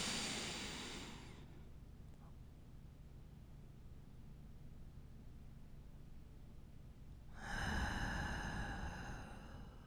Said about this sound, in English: Exhale. One more time. Inhale.